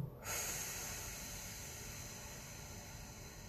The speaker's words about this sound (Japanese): 吸って吐くラスト吸って